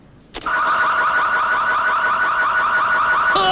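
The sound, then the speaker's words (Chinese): A car alarm goes off with a loud, rapidly warbling electronic tone that holds steady and continuous, starting abruptly after a short quiet moment. “对啊，我这种车子的报警信号是很灵敏的。”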